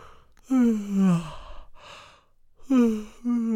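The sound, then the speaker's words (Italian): A voice imitates the yawns of a character who has gone hungry for hours in a stable. There are two drawn-out yawns with falling pitch, and a short voiced tail follows the second. “e Pinocchio rimase solo, e perché erano molte ore che non aveva mangiato, cominciò a sbadigliare.”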